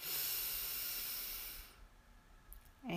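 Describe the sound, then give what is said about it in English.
A deep inward breath fills the opening moments with a steady, airy hiss lasting about a second and a half, then fades to near quiet before a voice starts faintly at the very end. “One last time. Breathe in”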